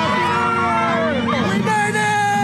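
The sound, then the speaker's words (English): Crowd noise from revellers in Times Square as the New Year's Eve ball drops to start 2024. Dense, loud, continuous hubbub with whoops and shouted voices rising and falling throughout. “A giant sparkling New Year's Eve crystal ball came down to start 2024, with confetti raining down on those in Times Square who were cheering, hugging, kissing, and shouting.”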